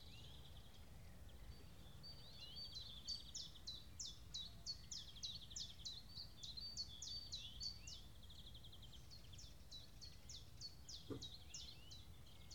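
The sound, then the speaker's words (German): Birdsong: many high, bright chirps repeating in quick, steady series over a low, continuous background rumble, with no voices. “Die Vögel.”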